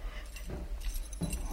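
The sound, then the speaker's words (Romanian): Keys jangling faintly as someone handles a bunch of keys at a desk drawer, heard as a few short, soft metallic clinking bursts with no talk over them. “Umblă cu niște chei.”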